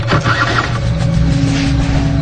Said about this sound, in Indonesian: Aku coba starter kembali dan menyala motor itu pun hasilnya nihil.